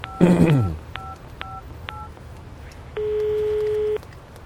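Telephone keypad tones as a number is dialed: three short beeps in quick succession, then a steady tone lasting about a second, after a brief sound at the start.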